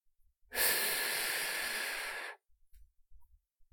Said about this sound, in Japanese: 息を吸って